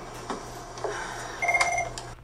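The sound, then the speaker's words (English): A telephone rings briefly: a short, fairly faint electronic warbling tone follows a couple of soft clicks. “pick up the phone, just.”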